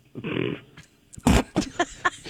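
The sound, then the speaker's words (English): A dog communication button playing its short recorded sound: a brief buzzy tone, then a few quick voice-like syllables, fairly loud and heard alone. “That's a new dog button that we got. You know how dogs can hit the buttons?”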